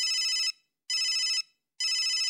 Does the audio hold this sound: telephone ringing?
yes